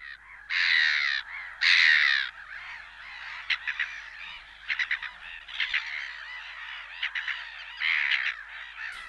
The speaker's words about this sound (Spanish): También la gaviota reidora, esa que ya es tan habitual en las orillas del Nervión.